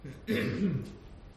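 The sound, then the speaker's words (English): Throat clearing from someone with a sinus infection: one low, rough, guttural rasp lasting about half a second, with no speech. “I apologize for my clearing of the throat and such.”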